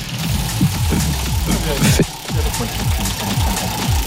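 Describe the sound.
A prize wheel spins on a French game show, giving a steady run of quick mechanical ticks that clatter on throughout, while voices talk over it.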